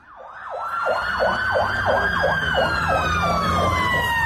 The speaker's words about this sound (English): The sound of emergency services in Northern Ireland's biggest city, Belfast, responding to another night of mobs on the rampage.